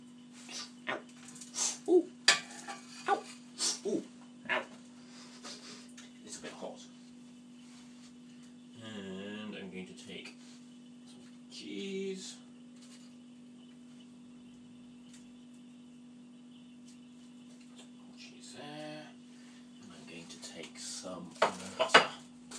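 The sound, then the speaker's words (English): Dishes clatter as a plate is lifted off a kitchen draining board: bursts of sharp clinks at the start and again at the end, with a steady low hum and brief vocal sounds in between. “Let me get a plate. Off the draining board.”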